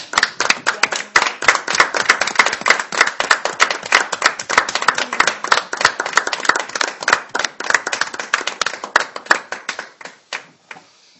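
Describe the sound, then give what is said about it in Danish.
Applause from an audience at a speaker meeting welcomes a guest: dense, fast handclapping that stays lively and thins out toward the end. “Og jeg synes, vi skal varme Thomas op med en rigtig varm hånd.”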